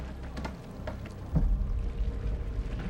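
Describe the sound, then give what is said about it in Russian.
Soft water sloshing and lapping as a rowboat with oars moves slowly through water crowded with frozen bodies, faint and low, with a few gentle splashes and a fuller swell of water partway through. “Лодка медленно плывет по кладбищу бледных замерзших людей.”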